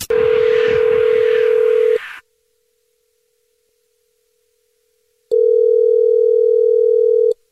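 Telephone tones as an outgoing call is placed: a steady, low, humming tone lasting about two seconds with some noise over it, then silence for about three seconds, then the same clean tone again.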